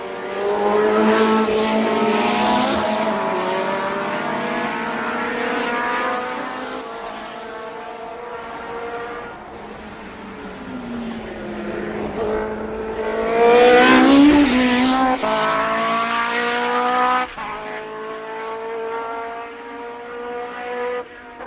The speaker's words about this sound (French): Franchissement d'un virage en S à plusieurs.